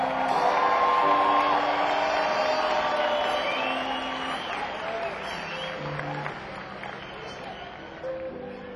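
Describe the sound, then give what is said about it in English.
Concert audience applause and cheering for a band on stage: a dense roar of clapping with scattered whoops that starts loud and gradually fades over several seconds. “How about a big round of applause for all these fellas on stage, you guys?”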